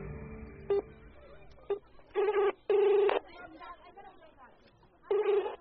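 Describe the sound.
A telephone number is dialed from inside a car: several short electronic tone bursts come at irregular intervals, some brief and some held longer, over a constant murmur of background chatter.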